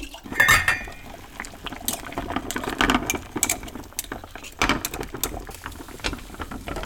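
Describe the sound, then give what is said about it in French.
Water boiling to sterilize a glass jar: steady bubbling and sputtering with scattered light glassy clinks, moderately loud throughout, no voices. “on va le stériliser. Et pour stériliser, on peut mettre soit dans l'eau bouillante pendant une minute, soit au four à 60 ou 80 degrés.”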